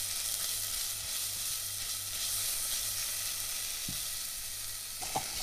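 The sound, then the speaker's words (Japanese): Ham and potatoes stir-frying with flour in a pan give a steady, even sizzle. The hiss runs continuously throughout, with a couple of faint knocks near the end. “そこへハム、じゃがいもを加えて炒めたら、小麦粉を加えてよく炒めてください。”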